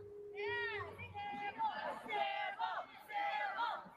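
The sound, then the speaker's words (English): A crowd shouts and cheers at a judged bout, many voices rising together in a few loud, drawn-out yells that swell and drop across the few seconds. “crowd chiming in there, making sure it's clear.”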